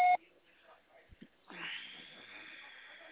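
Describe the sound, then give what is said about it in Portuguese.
A voicemail beep on a phone line: one short, loud electronic tone at the very start, followed by faint low noises and a soft hiss. “Deixa o seu recado após o sinal. É o que eu escuto quando eu ligo pra ela.”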